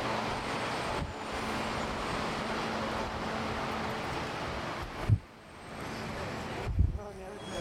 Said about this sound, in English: you're gonna get to hear some of the street sounds too